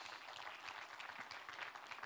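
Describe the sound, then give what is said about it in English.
A church audience at Northwood Church applauds its guests during a service. The clapping is faint and steady throughout. “Yeah, give it up for our guests today.”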